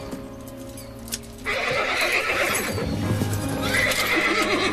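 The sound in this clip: A horse whinnies loudly as it rears with a rider in the saddle. A quieter opening gives way to a sudden, sustained, shrill neigh that rises in intensity, with hoof clops and scuffing mixed in.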